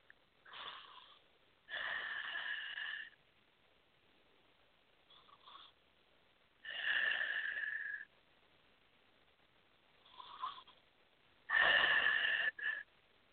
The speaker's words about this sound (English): take 3 nice deep breaths